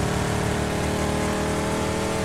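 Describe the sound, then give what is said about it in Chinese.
A loud, unbroken engine drone from a sports coupe in the video game PUBG, holding a steady, dense rumble throughout with no pauses. “我觉得这个车的噪音好大，听不到人说话了。这是跑车吗？所谓的轿跑。”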